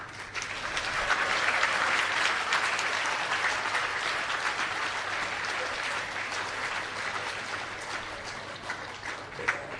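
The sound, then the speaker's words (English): An audience claps hands in dense, continuous applause that swells in the first couple of seconds, then holds at an even level for the rest, with no single claps standing out. “I don't know if Prabhupada meant that type of clapping.”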